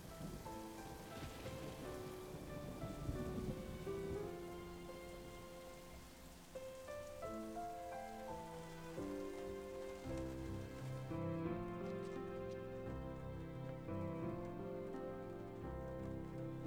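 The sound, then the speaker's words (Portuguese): Steady rain hisses through a dark scene in a Portuguese-dubbed animation, blending into a melodic orchestral score that carries throughout. “Chove como um pranto de nuvens feridas e a escuridão continua a reinar.”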